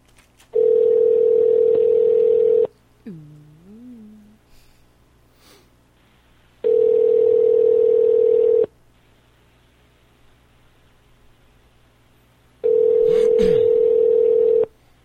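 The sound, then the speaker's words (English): Telephone ringback tone heard while a call is placed and waits for an answer: three long, steady, loud tones of about two seconds each, separated by longer quiet pauses, with faint breathing and small noises in the gaps. “I'm dialing.”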